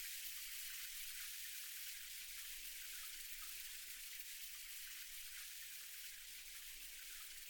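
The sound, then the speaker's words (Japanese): Quiet, steady hiss of shower water running as something is rinsed, an even spray with no breaks or changes for about seven seconds and no voices. “シャワーで流していくね。お湯熱くない？”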